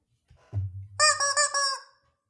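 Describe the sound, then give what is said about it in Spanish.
Chicken sound effect: a low buzzy tone, then a quick run of bright, nasal squawks, loud and harmonic, ending abruptly into quiet. “¿Puedes volver a poner el pollo?”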